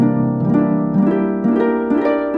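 Harp music from the fairy cave theme of the 1991 video game The Legend of Zelda: A Link to the Past, with bright, ringing plucked notes in repeating arpeggio phrases that recur about every half second at a steady, moderate loudness.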